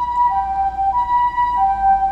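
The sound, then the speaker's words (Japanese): An ambulance siren sounds during a costume event with people dressed as zombies: a loud, steady tonal wail that holds for the whole clip without a break, with no talk over it. “でも、その、これ、救急車かも”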